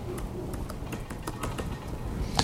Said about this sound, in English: Hebrews chapter 12, verse 11. Hebrews 12, 11. Let's type this in.